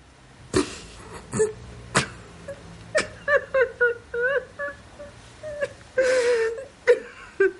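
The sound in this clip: A woman crying: shaky, whimpering sobs and wavering moans broken by sharp, breathy gasps. There are many short bursts in an uneven rhythm, with no spoken words.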